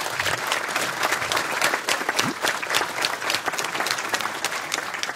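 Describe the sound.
Applause for a guest on stage: a crowd claps steadily and fairly loudly without pause, a dense patter of many hands.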